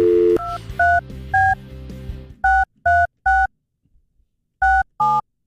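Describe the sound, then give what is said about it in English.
Touch-tone keypad beeps as a phone number is dialed for a cold call: many short dual-tone beeps in quick clusters, with a brief pause before the final two beeps. “Yeah, do you mind dialing?”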